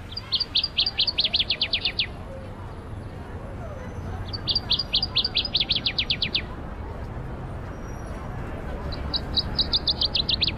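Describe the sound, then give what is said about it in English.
Song of a northern waterthrush, a slender olive-brown songbird with a buff eye stripe. Three bursts of rapid, bright, high chirps ring out over steady low background noise. “a slender songbird with an olive-brown back, pale yellow to buff underparts with dark stripes, and a pretty distinctive buff-colored eye stripe. And it sounds like this.”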